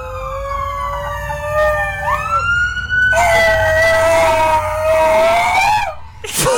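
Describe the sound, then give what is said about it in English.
A dog near a fire station howls in imitation of a fire truck siren, with two long, loud, wavering wails. The first slides upward in pitch partway through, and the second holds high before breaking off. “That was not somebody screaming out the window. That was my dog, Chewy.”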